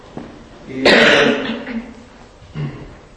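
A person coughs into a microphone, one loud, rough burst followed by a shorter, quieter cough a moment later.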